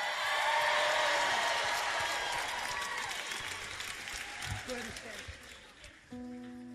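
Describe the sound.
Applause and scattered cheers rise from a church audience, fairly faint and gradually thinning out, before a few sustained musical tones enter at the end.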